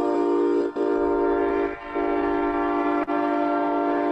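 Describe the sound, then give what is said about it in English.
A train sounds a loud, steady horn that is held throughout with only a couple of brief dips, and no voices are heard. “It's a train coming.”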